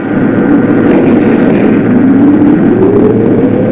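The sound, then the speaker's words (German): Generators starting up give a dense, loud, continuous engine roar, with the tone slowly climbing in pitch as they spin up. “Generator number one, please. Generator number two, please.”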